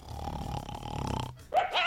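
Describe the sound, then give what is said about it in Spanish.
Low snoring grunts and rough breathing from a man asleep in bed with a dog, running unevenly for over a second before a short break and a brief high whine-like sound. “Ahí lo tiene el perro por un lado.”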